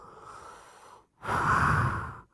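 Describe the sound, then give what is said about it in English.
Imitated breathing: a voice mimics the breathing of someone on life support, as heard over a phone. A softer, airy breath is followed by a louder, rougher one, with no other talk. “So this person who was tricking him would make this breathing sound like this.”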